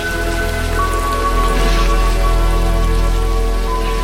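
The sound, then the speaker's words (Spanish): Heavy rain pours against a balcony, a dense, loud, continuous hiss of drops that holds steady throughout without a break. “mira, es terrible como llueve. Llueve todo el tiempo.”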